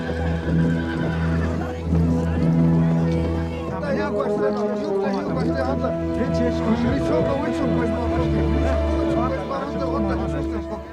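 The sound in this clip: Horses neigh and whinny as a large group of ponies arrives, with hooves clip-clopping underneath and voices mixed into the busy, continuous din.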